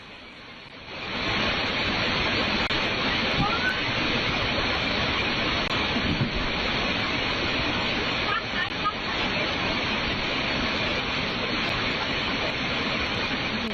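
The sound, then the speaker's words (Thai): Floodwater surges with a steady roar against stacked sandbag barriers in front of a house. The rush swells in at the start, then holds as a loud, unbroken wash of noise. “แรงดันของน้ำมันก็มหาศาลเห็นไหมมันผลักล้มหมดเลย กระสอบทรายตั้งหลายชั้น”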